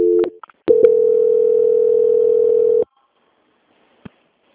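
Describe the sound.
Telephone line tone during a call transfer: a few short beeps and clicks, then one long steady tone of about two seconds, followed by silence and a single faint click.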